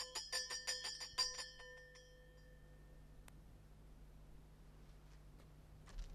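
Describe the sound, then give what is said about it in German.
A doorbell is rung again at a front door, giving a quick, even series of bright metallic strikes. The ringing then fades into a faint, steady hum. The whole sound is quiet. “Versuch's doch noch mal mit der Glocke.”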